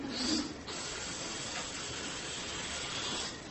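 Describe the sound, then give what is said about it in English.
Helium hissing out of the opened end of a balloon, a steady breathy rush of air that starts abruptly, holds evenly for about three seconds and then tapers off. “okay, got a nice helium balloon here. All right, got to turn this thing and okay, get the end, you know, where you can suck the helium in.”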